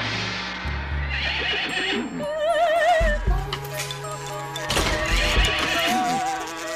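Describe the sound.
Horses snorting and whinnying, their wavering high calls rising over a busy, layered mix of other sounds, with a thudding clip-clop now and then.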